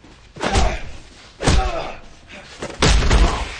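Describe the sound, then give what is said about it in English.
Three heavy slams and thuds as a body is driven into a corner during a fistfight, each a loud, low impact with a rough decaying tail and quieter gaps between. “Ray charges Lester and slams him to the corner. Lester slides to the floor.”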